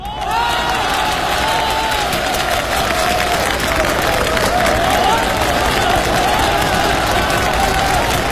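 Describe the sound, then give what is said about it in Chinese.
Audience applause at a live comedy auction performance: a dense, steady roar of clapping and crowd noise that holds at a constant loud level for the whole clip. “我看谁敢再鼓掌。”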